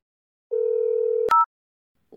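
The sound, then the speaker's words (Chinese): Telephone dial tone as a child dials the phone: a steady tone holds for under a second, then a sharp click and one brief higher keypad beep, followed by silence. “电话？你拨电话干嘛？110？”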